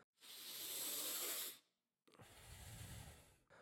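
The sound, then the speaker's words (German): Deep breathing during a guided breathing exercise: two long, airy, hissing breaths separated by a brief pause, with another breath just starting at the end, all soft and quiet. “Fang schon langsam wieder an, tiefe und schnelle Atemzüge zu nehmen.”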